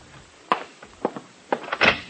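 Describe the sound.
Knocking at the door of a room: several dull, hollow thuds spaced unevenly, ending in a slightly heavier cluster of blows, with no talk.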